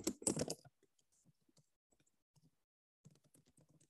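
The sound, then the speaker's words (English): Keys clatter briefly on a computer keyboard in a quick burst of typing, followed by a few scattered, faint taps. “Oh, let me type that for y'all.”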